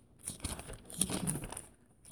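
Thin Bible pages rustle and crinkle as they are flipped toward the book of Romans. The soft, quick papery swishes and crackles stay faint, with no voices.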